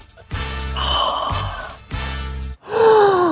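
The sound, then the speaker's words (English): A deep, audible inhale from a stumped quiz contestant, a drawn breath with voiced, groan-like tones around it. “it sounded like you had half a clue for a second there with that deep inhale.”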